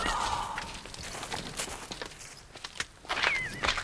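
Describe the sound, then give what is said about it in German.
Footsteps of two masked figures sneaking out of bushes: soft, light, irregular steps, quiet and scattered, with faint rustling between them. “Da schleichen ja noch zwei Gestalten aus dem Gebüsch. Sie sind maskiert.”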